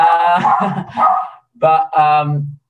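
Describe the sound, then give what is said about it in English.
A pet dog barks and yips in several loud, sharp, tonal bursts with short pauses between them, and the last call is drawn out into a whine. “Sorry, that's my dog. That'll be on the bloody recording, the dog.”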